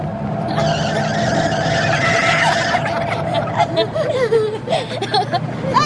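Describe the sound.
Tyres squeal as a taxi takes a bend very fast on the Croisette: a loud, sustained whine over engine roar, breaking into wavering, uneven squeals toward the end.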